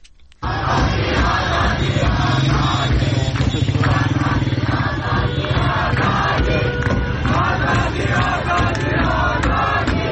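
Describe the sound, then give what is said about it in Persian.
A loud night-time street protest crowd in Tehran, Iran, with continuous shouting and chanting voices and engine noise mixed in, steady and dense throughout after a sudden start. “امشب هم معترضان در نقاط مختلف ایران از جمله در تهران، مشهد، خرم‌آباد، خمین و ماهشهر به خیابان آمده و اعتراضات شبانه خود را ادامه میدن. صدای اعتراضهایی در شهر تهران را میشنوید.”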